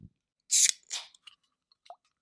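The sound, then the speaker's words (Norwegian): A can of Red Bull cracked open: a sharp, bright pop-hiss, then a second shorter burst of fizz and a few faint small clicks in near silence. “Knekk den Red Bull.”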